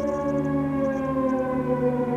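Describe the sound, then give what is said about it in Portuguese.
Air raid sirens sound ahead of an Iraqi missile attack, holding a loud, steady, multi-toned wail without a break. “25 de janeiro, após duas noites tranquilas, tocam de novo as sirenes.”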